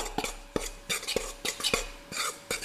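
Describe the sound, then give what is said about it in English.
Spoon stirring sugar and a pinch of salt together in a bowl, a brisk series of light clinks and scrapes against the bowl in an uneven rhythm, fairly quiet, with no talking. “Okay, that's the sugar in. And then I'm gonna add a pinch of salt. And then I'm just gonna mix this together,”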